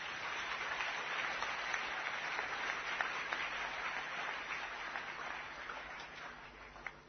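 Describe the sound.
A church audience applauds to acclaim God during an evening seminar service. The clapping is faint and sustained, then thins toward the end.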